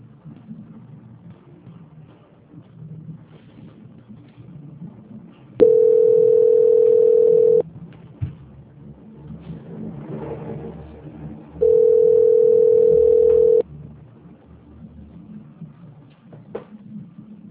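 Two steady, mid-pitched telephone call-transfer tones, each about two seconds long and several seconds apart, over faint low background noise.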